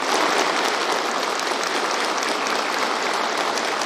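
Warm applause from army officers and soldiers at a base in Xi'an as Xi Jinping greets them. Many hands clap together in a thick, even roar that stays loud and steady throughout.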